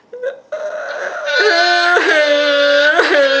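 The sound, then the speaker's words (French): People fake crying on cue, their overlapping voiced wails and sobs wavering in pitch. After a brief sound at the start, the crying begins at about half a second and holds steady and fairly loud to the end. “Alors, on va en pleurer. Est-ce qu'on peut pleurer maintenant? S'il vous plaît, on va pleurer. 1, 2, 3.”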